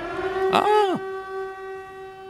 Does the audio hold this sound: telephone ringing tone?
no